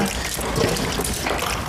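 Tap water runs for washing hands before a meal, a short, steady, fairly loud rushing stream with no pause.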